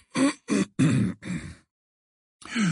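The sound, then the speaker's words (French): Throat clearing: four rough, raspy bursts in quick succession, then a stretch of silence before another begins. “À cet instant, Dumbledore s'éclaircit la gorge et le silence revint aussitôt dans la salle.”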